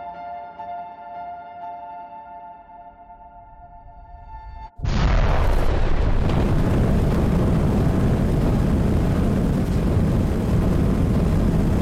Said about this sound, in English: We've left Mars and survived takeoff in this giant tin can.